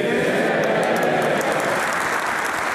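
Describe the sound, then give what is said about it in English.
Standing ovation in the House of Commons for a president appearing on Zoom: dense, loud, steady applause from many hands, continuing without a break. “he was greeted with a standing ovation as he appeared on Zoom to address the House of Commons”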